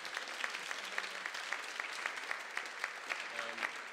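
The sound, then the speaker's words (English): Warm applause from a church audience welcoming a team, with steady, evenly paced clapping filling all four seconds. “Hey, let's give these guys another really warm welcome.”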